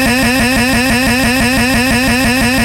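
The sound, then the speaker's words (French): A scooter engine starts up and runs loudly with a fast, regular sputtering pulse that stays steady throughout, with no talk over it. “C'est vrai qu'on l'a pas fait tourner beaucoup ce soir le scooter. Hein. En même temps, c'est dimanche. Hein. Il faut qu'il se refasse. Alors démarrage.”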